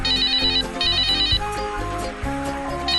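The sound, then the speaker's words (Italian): A mobile phone ringtone repeats a bright, high electronic melody in a few short bursts, layered over lower sustained musical tones, loud and without talk. “O come la suoneria di un cellulare.”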